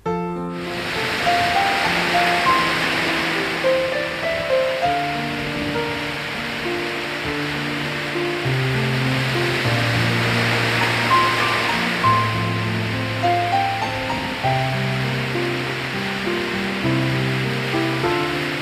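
Ocean waves breaking on a beach: soft surf swells in and recedes in slow, hissing surges, a couple of them louder, beneath gentle, melodic piano-like music.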